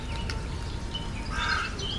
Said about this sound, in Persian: وقتی صدای آب را با صدای پرنده ها و باد کوهستانی ترکیب کنیم،